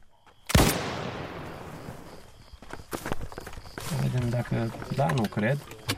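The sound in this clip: A rifle shot fired at a jackal in a Romanian farm field rings out once as a sharp, loud crack with a long decaying tail, followed by rustling and people talking.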